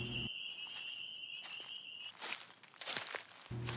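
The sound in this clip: Faint, soft footsteps of someone hiking back toward a park entrance come as a few uneven steps. A steady high insect chirp continues throughout over a quiet, low background.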